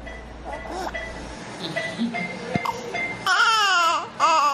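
A seriously ill baby girl babbling and laughing: soft, wavering coos and babbles give way to louder, bright, bubbling laughter toward the end.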